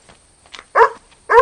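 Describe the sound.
A dog barks near a kangaroo carcass: two loud, harmonic barks come close together, with a faint yelp before them.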